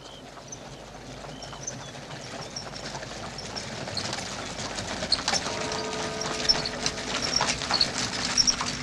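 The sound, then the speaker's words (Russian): A horse-drawn carriage pulled by four white horses travels along a road through a green field, its hooves clip-clopping steadily over a rumbling background. The sound grows slightly louder toward the end. “Через зеленое поле по дороге едет карета, запряженная 4 белыми лошадьми.”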